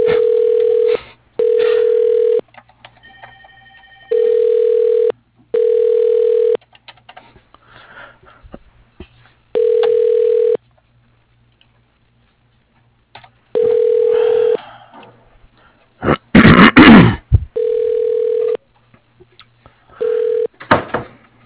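An outgoing telephone call rings through to a carpet business contact's voicemail. Steady mid-pitched ringback tones come in repeated bursts, mostly in pairs separated by silent gaps. A brief noisy clatter breaks in late before the ringing resumes.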